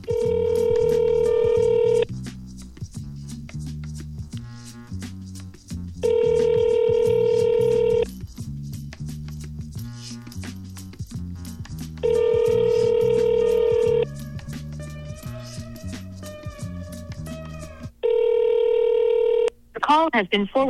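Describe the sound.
A telephone call ringing out before being forwarded to voicemail. Four long steady ringback tones, each about two seconds, repeat at regular gaps over background music, and a recorded voice speaks briefly before the last ring.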